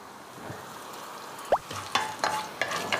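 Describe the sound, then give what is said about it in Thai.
Cumin and black mustard seeds sizzle as they are stir-fried in a pan, a steady soft frying hiss broken by a few brisk scraping stir strokes. “เขาจะผัดให้หอมก่อนอันนี้เม็ดยี่หร่าเริ่มหอมมัสตาร์ดซีดเริ่มออกกลิ่นนะคะ”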